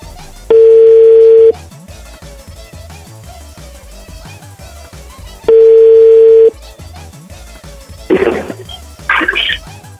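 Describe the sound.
A telephone dial tone sounds while someone dials a number from memory. Two steady, loud tones of about a second each are heard, a few seconds apart, then two shorter, harsher bursts of key tones near the end, over a faint background.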